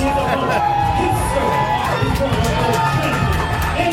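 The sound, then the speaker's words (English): A crowd at a live wrestling show cheering loudly, a dense, steady roar of many voices with whoops and shouts running continuously throughout. “Zach Gowan coming up with thunderous applause. Crowd favorite here at XICW.”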